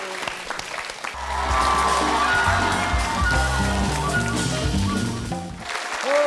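Applause for guests on a Hong Kong show, a dense, steady roar of clapping that swells after the first second and holds loud before easing off near the end.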